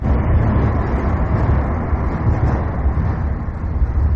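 Traffic noise from the Old Sava Bridge, a large metal structure, forms a steady, dense, low roar with no distinct separate events.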